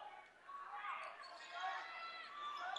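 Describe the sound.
A basketball is dribbled on the court during a Kearney High girls' game, with repeated bounces under ongoing commentary talk.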